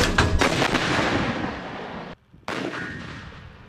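A howitzer battery fires during a live-fire exercise: a heavy boom with a long rumbling decay, a brief silence, then another loud blast.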